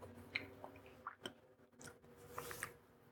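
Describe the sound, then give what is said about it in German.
Faint, soft chewing as someone tastes chocolate, with a few moist squishy bites and small crunches spaced irregularly over quiet background. “Ich probiere jetzt mal die Schokolade.”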